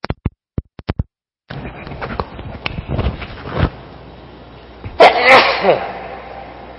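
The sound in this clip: A single loud, explosive sneeze bursts out during a spoken religious lesson, following a few sharp clicks and a stretch of faint rustling.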